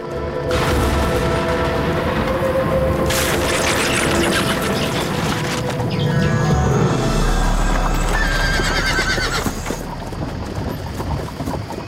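Horse hooves clip-clop steadily as a family's horse-drawn carriage travels through a dark night, with repeated whinnies and a deep low rumble swelling briefly partway through.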